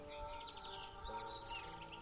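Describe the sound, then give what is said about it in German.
Blue tit chirping: a continuous run of high, thin tweets and short trills that repeat quickly and stay moderately loud, with no talk. “Als du von ihrem Rücken heruntergeklettert bist, fängt die Blaumeise an zu zwitschern.”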